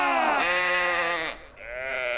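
A sheep bleats loudly twice. The first bleat is long, wavering and rich in harmonics; after a brief dip comes a shorter, slightly softer second bleat.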